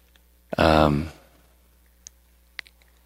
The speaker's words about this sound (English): When you want to stop clicking your text message program, it's disturbing the other devotees.